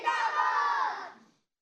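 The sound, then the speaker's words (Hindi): A crowd chants a slogan in unison at a Dawat-e-Islami religious programme. The loud, sustained massed voices hold for about a second before fading out. “ज़िंदगी रही तो इंशाल्लाह कल फिर हाजिर होंगे, नारा लगाएंगे दावत इस्लामी।”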